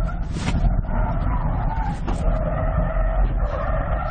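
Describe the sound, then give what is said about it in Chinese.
Tires squeal and the engine hums as a car slides its rear wheels while weaving around cones, with sharp squeals rising over a steady low engine rumble. “后轮已经已经开始往外甩了，这是绕桩绕桩的过程中，我这一代油门还是会比较轻，不然它的尾巴会越甩越厉害。”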